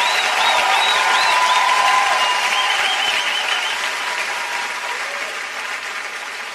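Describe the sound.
Concert audience applause for a performer: dense, steady clapping from a large crowd, holding strong before gradually tapering off toward the end.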